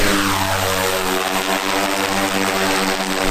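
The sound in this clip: An aircraft taking off over dense forest in a Heilongjiang nature reserve: a loud, steady engine drone with a strong humming undertone that holds unbroken throughout, with no talking.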